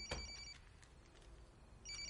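A telephone rings with two short bursts of electronic trilling, one at the start and one at the end, faint over a quiet background.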